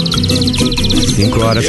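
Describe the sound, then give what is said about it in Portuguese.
A canary sings in the background, a rapid series of high, repeated chirping trills running beneath a louder singing voice. “Olha o canário cantando de fundo, ó.”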